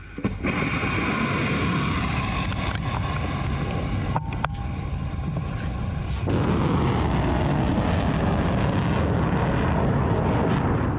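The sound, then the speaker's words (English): Khyber Shekan, Fatah 110 and Fatah 313 solid-fuel missiles launch with a loud, continuous rushing roar and deep rumble. The roar holds steady throughout and shifts in texture about midway. “Those are Khyber Shaitan and Fatah 110 and Fatah 313 solid fuel missiles that you see launched there.”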